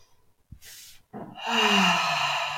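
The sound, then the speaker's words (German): A deep breath taken in and let out, a short sharp intake followed by a brief pause, then a long, full exhale with a low voiced sigh that slowly fades, alone and fairly loud. “einmal ganz tief ein- und ausatmen.”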